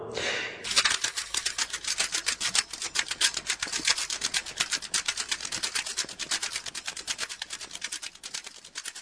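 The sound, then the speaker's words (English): Tape runs off the end of a spool on a reel, flapping in a rapid, very regular stream of dry ticks that continues steadily and fairly loudly throughout. “For some reason, the rest of the reel is taken up with a recording of tape running off the end of a spool.”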